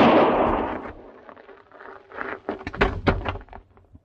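A single loud gunshot from an Old West shootout bursts at the start and decays away, followed by a cluster of sharper knocks and clatters.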